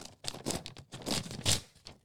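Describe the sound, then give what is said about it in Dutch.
A crisp, uncrumpled paper envelope is torn open in a few quick ripping and crinkling bursts. The tearing is fairly quiet and uneven, with no voices. “Hele mooie envelop. Volgens mij de enige die kreukvrij is meegekomen. Ik maak hem even open.”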